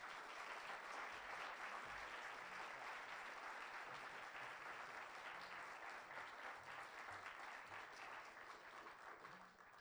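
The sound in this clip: A Harrisburg audience gives a speaker a warm welcome with applause, a quiet, dense patter of clapping that runs continuously and thins slightly at the close.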